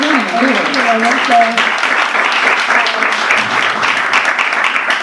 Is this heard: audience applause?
yes

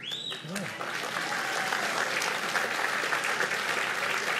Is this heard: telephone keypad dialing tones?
no

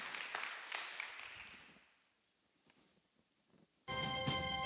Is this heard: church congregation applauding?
yes

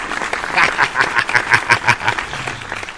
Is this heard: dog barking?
no

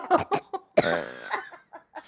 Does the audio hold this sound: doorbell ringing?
no

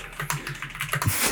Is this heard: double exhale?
no

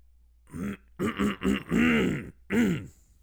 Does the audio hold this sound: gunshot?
no

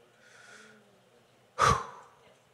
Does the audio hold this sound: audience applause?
no

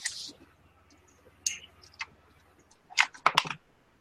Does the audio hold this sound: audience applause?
no

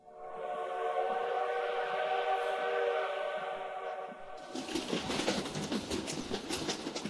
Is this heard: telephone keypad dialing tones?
no

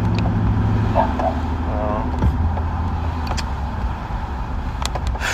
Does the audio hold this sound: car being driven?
yes

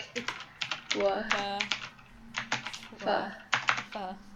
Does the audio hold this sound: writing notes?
yes

